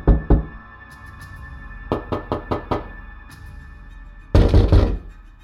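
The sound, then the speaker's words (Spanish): Knocking on a door with a closed fist: two knocks, then a quick run of about five, then a louder, heavier burst of rapid blows near the end, with no talk. “Durante las tardes siguientes se oyó de nuevo llamar a la puerta, suavemente al principio y después más fuerte, con el puño cerrado.”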